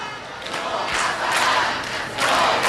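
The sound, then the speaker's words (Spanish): Crowd cheering and shouting to greet someone arriving: a dense, continuous roar of many voices that swells in waves and grows loudest near the end. “Alguien llega y le están jaleando.”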